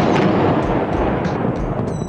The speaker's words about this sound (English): The United States and the United Kingdom start with their shock and awe campaign with a massive airstrike on military targets in Baghdad before the invasion of Iraq by land soldiers.